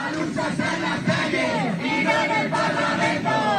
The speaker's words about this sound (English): it's the sound of thousands of protesters marching through the streets of Madrid today